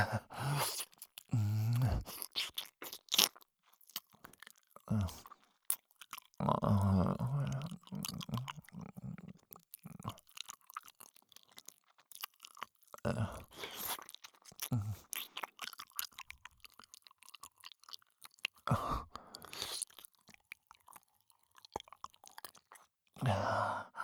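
Wet licking and smacking mouth sounds at an ear, coming in irregular bursts of varying loudness with short pauses between them.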